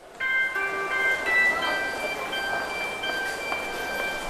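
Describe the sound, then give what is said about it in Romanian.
A train at a railway station platform gives a steady rushing noise laced with thin, high, sustained squealing tones. “Alerg pe peronul gării de nord, speriat de ideea că îl voi pierde. Trenul acesta nu trebuie pierdut.”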